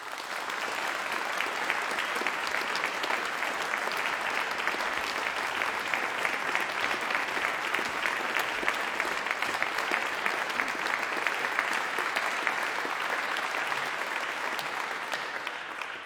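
Sustained audience applause welcoming performers to the stage at an event on church music. Many hands clap in a steady, dense patter without a break for about sixteen seconds.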